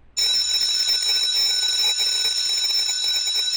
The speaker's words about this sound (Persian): او این صدایی چی بود؟ معلومه بله زنگ مدرسه